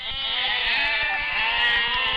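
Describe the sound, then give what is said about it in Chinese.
Goats bleat, part of a newly bought flock of twenty: a sustained, wavering bleat at moderate volume with other overlapping bleats, and no talk. “这是买了多少只羊呀？ 20只 啊， 都是山羊。”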